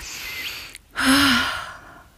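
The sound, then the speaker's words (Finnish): A person breathes deeply: a long, airy intake of breath, then a short pause and a fuller, slightly voiced breath that fades out. “Mä hengitän.”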